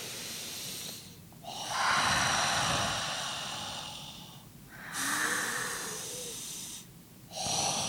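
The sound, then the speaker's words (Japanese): Deep, hissing breaths drawn through the nose during a tingling nasal treatment: three long rushing airflow sounds, the last one cut off, with no talk. “これで深呼吸しようか”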